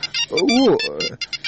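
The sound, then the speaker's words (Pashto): A mobile phone rings with a short electronic ringtone, a bright, warbling melodic tune followed by quick, high, pulsing notes. “زنګ دې درته زویه.”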